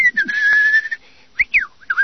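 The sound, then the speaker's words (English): A man whistles while shaving with a blade. One clear, steady note is held for nearly a second, then after a short pause come a few quick sliding notes. “He whistles in between strokes of the blade.”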